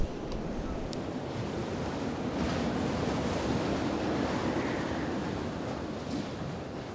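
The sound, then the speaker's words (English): Wind blows over a tent being pitched on open ground at a 24-hour bike race, making a steady, rushing roar. The roar holds an even loudness for the whole stretch, with no voices. “the wind's only blowing over the tent most of the time”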